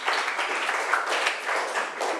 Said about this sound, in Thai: ขอบคุณค่ะปรบมือให้เพื่อนหน่อย